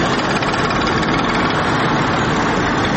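An old motorcycle engine runs with a continuous, loud, low idling chug and buzzing vibration, steady throughout with no speech.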